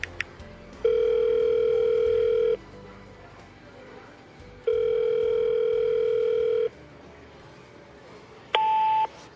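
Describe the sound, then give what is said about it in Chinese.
Telephone ringing tone during a call: two long, steady, evenly spaced tones with a gap between them, then a short, differently pitched beep at the end. “躲回自己房间里给黎硕打了个电话”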